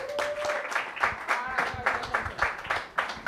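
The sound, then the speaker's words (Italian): Audience applause at a comedy night, with many hands clapping in a pulsing, roughly regular beat that swells and dips several times each second. “Un grande applauso a Simone Luzzi!”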